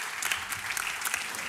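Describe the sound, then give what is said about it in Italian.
Applause after a musical performance: a short, continuous patter of many clapping hands, fairly soft and steady throughout, with no voices on top. “applaudiamo anche noi, chissà se avete voglia di unirvi”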